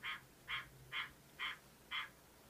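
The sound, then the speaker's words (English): A frog croaks outside a window in the countryside, giving five evenly spaced, raspy croaks. They are faint against a low background hum. “what you just heard was like a frog, and it's like outside of my window.”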